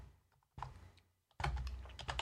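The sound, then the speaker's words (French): Typing on a new computer keyboard: quick clicking keystrokes come in two bursts, a lighter run followed by a denser, louder flurry of taps. “Je ne sais pas écrire. Je suis toujours pas habitué à ce nouveau clavier.”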